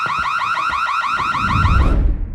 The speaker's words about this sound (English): A bright light is flashing along with the alarm.